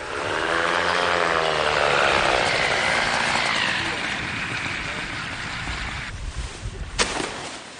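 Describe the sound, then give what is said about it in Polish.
A motorized hang glider (microlight trike) drones as it flies in to land, a loud buzzing engine whine that holds steady and then eases lower toward the end. “To nie Sasza, to jest jej kolega z ekipy, który, jak się właśnie dowiedzieliśmy, lata na moto lotni”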